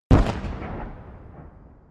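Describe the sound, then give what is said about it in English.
A mortar shell explodes above Fort Sumter at the opening of the Civil War: one sharp, loud blast followed by a long, fading rumble. “The mortar shell flashes brilliantly as it cuts across the still dark sky, then explodes in flashes of orange and red right above Fort Sumter.”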